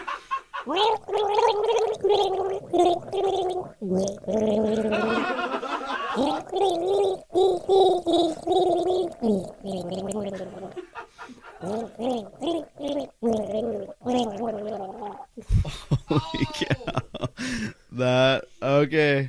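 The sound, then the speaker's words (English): A woman gargles a love song, producing a loud, bubbly, wobbling melody that runs continuously for about fifteen seconds and then gives way to a few brief, broken sounds at the end. “gargling a love song”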